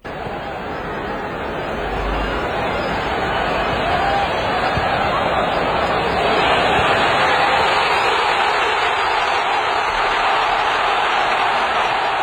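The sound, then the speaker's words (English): Tens of thousands of fans in a stadium roar for Team Canada's goal in extra time, a dense, continuous wall of crowd noise that builds slightly and then stays loud throughout. “That's the sound of tens of thousands of people at the stadium with Team Canada scoring that goal in extra time.”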